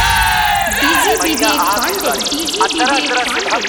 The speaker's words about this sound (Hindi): सभी अपन हाथ उठा के एक बार प्यारा सा जयकारा माई दुर्गा के लगा दी सभी। प्रेम से बोली दुर्गा मैया की।